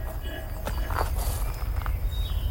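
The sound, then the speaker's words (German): Slow footsteps walk along two rows of graves in a village cemetery, a few soft, irregular steps over a low, steady background rumble. “Langsam schritt Wank die 2 Gräberreihen ab.”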